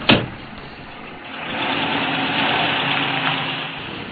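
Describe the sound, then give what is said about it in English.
A car engine hums steadily while driving to the beach. It opens with a brief bump, then the drone swells and holds at an even, moderate level with no talking. “Larry 和李华开车去海边。”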